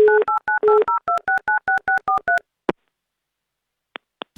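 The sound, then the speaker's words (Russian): Touch-tone telephone dialing: about a dozen quick dual-pitch beeps in a steady rhythm as a phone number is keyed in. A single click follows, then two short, higher beeps after a pause. “Сейчас, да, есть у нас связь, и давайте его номер мы прямо сейчас и наберем.”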